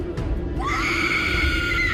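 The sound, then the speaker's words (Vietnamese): A shrill, terrifying scream in a village ghost story starts after a short low rumble, rises briefly, then holds a high, steady pitch for over a second. “Một tiếng thét kinh hoàng phát ra”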